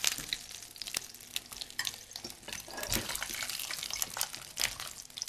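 A second batch of zucchini fries in a pan, giving a dense, steady crackling sizzle with scattered sharp pops and stirring noises throughout, and no talking.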